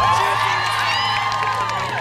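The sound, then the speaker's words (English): Crowd cheering and whooping at a live show, a loud, dense roar of many voices that holds steady across the whole stretch. “So cheer not for us, but for yourselves. Go on.”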